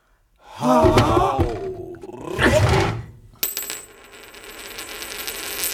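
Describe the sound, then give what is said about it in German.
A Greek coin drops with one sharp metallic strike, then rings on in a high, thin shimmer that fades slowly over the last couple of seconds. “Eine Münze. Das ist griechisch.”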